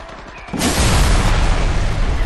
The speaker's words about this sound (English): In a thunderous crash, the side of the main warehouse broke apart, and an Abrams M1 tank rolled out of the building